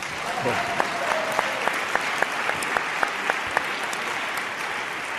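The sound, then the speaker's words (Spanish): An audience applauds with steady, dense clapping that continues evenly for about five seconds, with a few sharper individual claps standing out. “Aplausos.”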